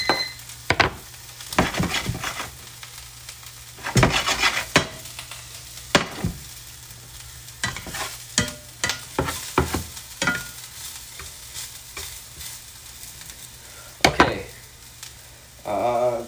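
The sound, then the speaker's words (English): Onions sauté in a frying pan with a steady sizzle, broken by frequent scraping, stirring and clanks as they are shaken and lifted off the bottom of the pan. “saute. Lift them up off the bottom of the pan. Because if anything sticks, then that sucks.”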